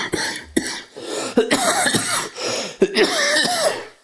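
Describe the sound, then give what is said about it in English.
A harsh bronchial cough from a person with a chest illness, coming as a loud, rough fit of repeated bursts with short wheezy catches between them. “so yes, the ugly is the bronchial cough.”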